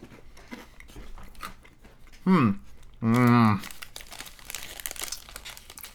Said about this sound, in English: Oh, I'm eating this whole bag, too. They taste like chocolate Teddy Grahams. Yeah, I mean, really good crunch.